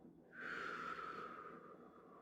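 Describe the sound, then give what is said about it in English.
A slow breath out during a guided breathing exercise: one long exhale that starts abruptly after a quiet moment, carries a faint airy whistle, and tapers off gradually over about two seconds, with no talking. “I want you to breathe in with me. And release.”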